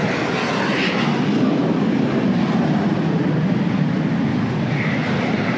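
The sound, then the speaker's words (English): A jet aircraft rolls down the runway at an air show with a loud, broad engine roar. The roar holds steady and level through the whole clip, with no voices. “Oh, you can tell we're at an air show. Here comes somebody rolling down the runway with converting lots of kerosene to noise.”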